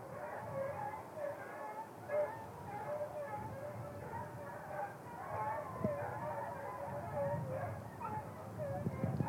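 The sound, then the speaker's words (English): Trail hounds baying and barking on a practice run at Gatescarth: many faint yelps and bays blend into a busy chorus, with people talking over them. “at Gatescarth they've got the trail hounds probably having a practice run”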